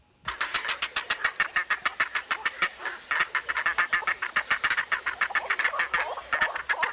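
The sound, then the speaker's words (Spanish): A grey heron colony at the nest, with chicks begging for food among the adults, produces a loud, unbroken stream of rapid, harsh clacking calls in a fast pulsing rhythm. The calls continue without pause, and no voices are heard. “Y a ver cómo nos suena la garza real.”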